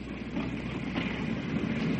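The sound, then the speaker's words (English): Rumble of a crowded passenger train heard from aboard a carriage: a dense, even, low roar that holds steady throughout, with no voices over it. “And we'll be off in a moment. Good. Good. I'm sure there are far too many people in this train.”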